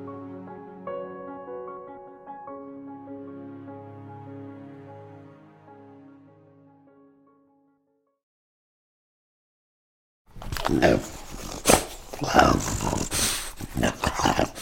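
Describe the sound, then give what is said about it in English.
A French bulldog makes rough, guttural noises, with loud snorting grunts and growly rasps in irregular bursts. They come after a fading tonal passage and a short silence. “It's not exactly the most pleasant of noises. And the French bulldog, that's what you're listening to, isn't the most attractive of animals.”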